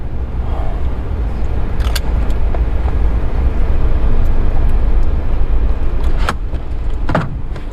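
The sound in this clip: A car being driven gives off a steady, loud low rumble of road and engine noise that stays constant throughout, broken by a few brief clicks.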